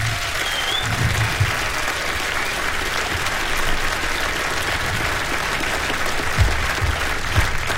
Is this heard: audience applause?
yes